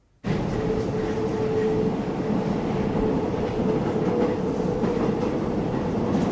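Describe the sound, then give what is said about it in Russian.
A train riding on rails makes a continuous, loud rolling rumble with faint rhythmic clicking and a thin, high whine running through it, with no voices. “Едут в поезде.”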